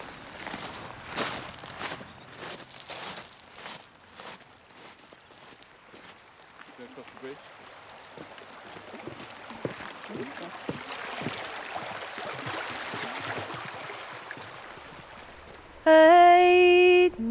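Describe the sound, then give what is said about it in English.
Footsteps wading and walking across a stream beside a loch, many uneven steps over a steady wash of rustling noise, with a loud harmonic tone cutting in at the very end. “I wonder if we could just walk over the stream and stop there to sing the song. Let's do that.”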